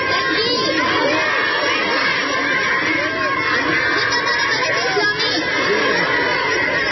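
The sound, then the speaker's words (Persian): A crowd in the city of Kunduz shouts and cheers in celebration of a newly announced government, chanting Allahu Akbar; many overlapping voices merge into a loud, continuous roar. “در گوشه ای از شهر قندوز نیز افرادی با استقبال از دولت موسوم به امارت اسلامی صدای الله اکبر سر دادند.”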